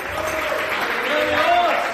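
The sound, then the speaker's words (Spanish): Congregation applauding during a church service: two seconds of steady, dense clapping with voices calling out over it, growing slightly louder toward the end. “Dele un aplauso al Señor, hombre.”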